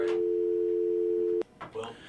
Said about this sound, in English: Oh, somebody hung up.